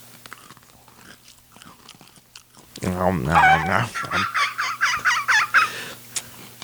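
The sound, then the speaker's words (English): Faint crunchy bites and chewing of a cookie, followed by a loud burst of warbling, gobbling vocal noises and bright vocalizing that dominate the second half. “I'm eating the cookie now. We are putting the cookies in our mouths.”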